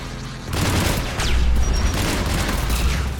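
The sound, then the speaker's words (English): Enemy rocket fire in a shooter video game: a heavy, continuous low rumble of booms and blasts kicks in after half a second and stays loud, with crackling bursts layered on top. “Okay, wow, those guys have enough rockets to hurt.”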